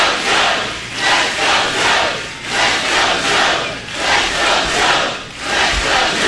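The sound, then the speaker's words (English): An audience at a political rally chants loudly in unison. The crowd's voices rise and fall in regular, rhythmic swells that repeat steadily throughout, with no single voice heard apart from the crowd. “Now, here's the chant.”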